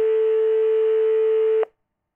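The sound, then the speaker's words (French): A telephone dial tone before a call: one loud, steady, unbroken tone lasting about a second and a half, then cut off abruptly into silence. “Allô, docteur Bichet? C'est Madame Morin. Je vous téléphone pour mon chat.”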